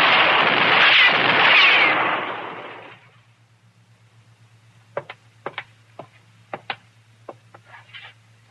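A gunshot fired at someone up high, a loud blast with a long rumbling decay, followed after a pause by a run of sharp, faint clicks and taps.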